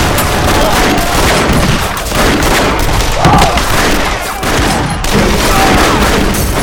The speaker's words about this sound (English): shot the man who was forcing the girl's legs apart through the head.